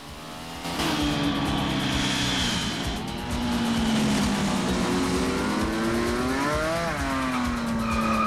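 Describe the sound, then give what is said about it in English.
A race car performs a high-speed skid at a crossroads. After a brief quieter moment, a loud engine roar with tire squeal bursts in and continues alone, its pitch wavering and sliding as the car slews through the turn. “They turn off at a crossroads, and Santiago performs a high-speed skid in an attempt to keep up.”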